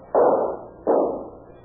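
Two gunshots fired at the window glass of a Ford in a radio drama shootout. Each is a muffled, heavy crack with a decaying tail, and the two come less than a second apart.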